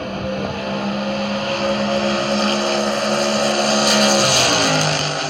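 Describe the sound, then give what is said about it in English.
Big block super modified race car engine at Homestead Miami Speedway: a loud, sustained harmonic roar that holds a steady pitch, then dips briefly near the end before settling. “That is the sound of a big block. Shut up. Of a big block super modified.”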